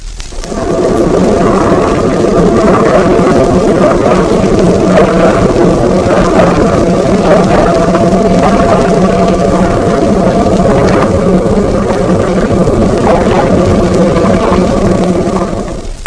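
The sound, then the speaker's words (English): A submarine propeller shaft turning at very low speed gives a sloshing sound with each revolution, heard under water within a continuous loud churning drone, with faint regular pulses running through it. “Third, the propeller shaft, which at very low speeds sometimes produces a sloshing sort of noise at each revolution. This is plainly shown in example 3.”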